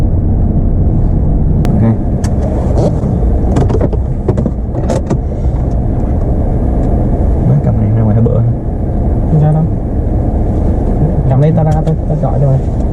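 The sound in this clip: A car's engine rumbles on a road at night near a cemetery in Knob Noster, a steady low drone that runs throughout beneath people talking.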